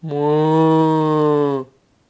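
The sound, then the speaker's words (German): A single long cow moo, low and steady with a rich, buzzy tone, holding for about one and a half seconds before cutting off into silence. “Und die Kuh sät”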